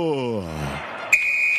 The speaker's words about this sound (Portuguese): Quando nesse momento apita o árbitro